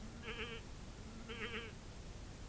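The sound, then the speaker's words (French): An old goat bleats twice, two short quavering cries spaced about a second apart, each wavering and nasal, fairly quiet over a steady low background hiss with no voices. “Elle rencontre une vieille chèvre,”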